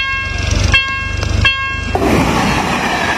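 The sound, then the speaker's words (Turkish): A train's horn blasts at a level crossing in Poland as a car drives in despite red warning lights. Loud, steady horn tones ride over a low, rhythmic rumble, then give way abruptly to a loud rushing roar. “Kırmızı uyarı ışıkları yanmasına rağmen geçmeye çalışan otomobile tren çarptı.”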